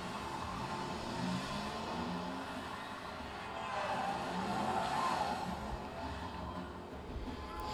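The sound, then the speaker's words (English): A car drifts with its tires squealing, a continuous harsh screech and engine roar that runs the whole time and swells a little past the middle before easing off. “He is drifting too fast, too furious.”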